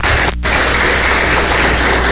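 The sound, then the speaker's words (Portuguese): Applause for the Lord in a church service, a loud, dense wash of continuous clapping that breaks off briefly near the start and then carries on steadily. “dê a sua melhor salva de palmas para o Senhor”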